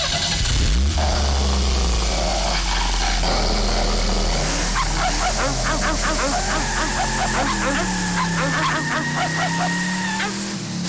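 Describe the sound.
A car engine starts and revs with a low droning tone while dogs nearby bark repeatedly over it, all fairly loud throughout.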